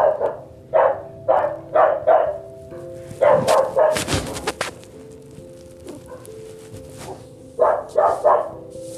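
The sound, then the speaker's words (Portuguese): Dog barking in repeated clusters of quick, sharp barks, several rounds separated by short pauses, fairly loud and with no talk over them. “E agora tem um cachorro latindo ali, me atrapalhando a gravar podcast.”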